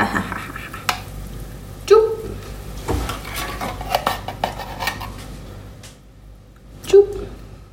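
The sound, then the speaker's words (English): A metal spatula stirs diced tomatoes in a frying pan: soft scraping and clinks run throughout, with two sharper knocks against the pan, one early and one near the end, under light sizzling. “That was my spatula on the pan.”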